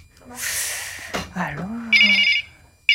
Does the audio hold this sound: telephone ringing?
yes